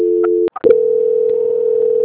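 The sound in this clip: A telephone tone sounds during a call transfer: a steady, even tone cuts off at about half a second, a couple of short clicks follow, and then a single steady tone runs unbroken to the end.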